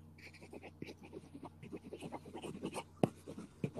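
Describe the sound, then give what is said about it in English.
A pen scribbles on paper in many short, scratchy strokes with an irregular, quick rhythm, faint throughout, with a few slightly sharper taps near the end. “Oh, writing down a lot. No, I'm actually just scribbling.”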